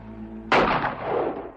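A single loud gunshot from a 1960 western film cracks sharply after a low hum, then trails into a long, rumbling echo that slowly fades.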